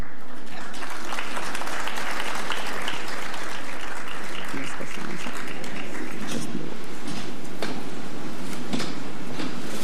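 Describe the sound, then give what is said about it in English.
Audience applause at an awards ceremony greeting a presenter: dense, steady clapping that fills the whole stretch at an even, loud level, with no voices standing out. “Please put your hands together for the Honorable Minister Kwame McCoy.”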